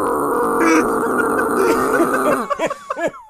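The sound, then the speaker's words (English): A voice imitates a squeezed rubber chicken with loud, strained vocal noise that breaks into a few squeaky squawks wavering up and down in pitch. “Those like rubber chickens that when you squeeze them, they like make noise. So like the whole way down is just like,”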